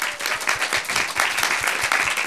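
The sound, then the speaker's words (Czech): Audience applause at a live music show after a band's set, a dense sustained clatter of many hands clapping at a steady loud level throughout, with no voices over it. “tak potlesk ještě jednou, prosím.”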